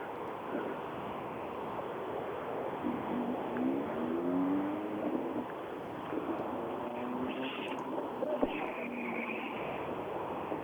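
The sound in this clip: A mustard-yellow Opel Corsa rally car drives on a rally stage. Its engine makes a steady, muffled roar under broad wind-like noise, and whining engine tones climb briefly as it revs.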